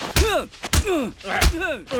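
Punches land in a fistfight: three heavy thumps, each paired with a strained vocal grunt or shout, spaced unevenly and loud.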